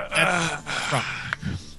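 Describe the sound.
A short voiced groan of reluctance from a person, a drawn-out moaning sound lasting under two seconds, wavering in pitch and breaking off with a breathy catch near the end.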